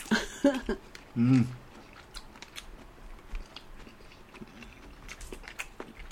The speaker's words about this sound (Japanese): よう噛まなあかんから、 よう噛まなあかんし、うまいしね